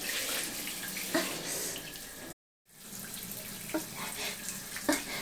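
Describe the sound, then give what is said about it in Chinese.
Water rushes steadily from a faucet whose valve won't shut off, a continuous splashing hiss broken by a brief silent dropout midway, with a few sharper splashes along the way. “你快来看看， 是不是因为这个水龙头的阀门关不上了呀？”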